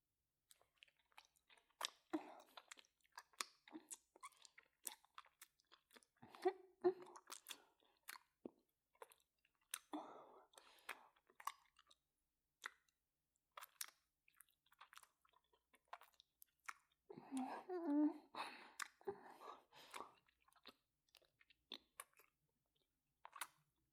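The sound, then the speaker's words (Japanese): ASMR licking mouth sounds: many wet, close clicks and smacks arrive in irregular clusters, fairly soft, with brief pauses between bursts and no talk. “じゃあ、舐めるよ。”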